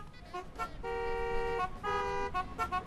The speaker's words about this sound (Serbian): Snimio je zvuke saobraćaja, zaista je ovo zvuk Beograda, u jednoj ritmičnoj cjelini naravno remiksovao sve ovo.